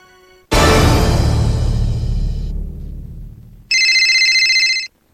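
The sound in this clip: A telephone ringing loudly: a long, sustained ringing burst that fades, then a shorter, high, bright ring that cuts off sharply, with no talking.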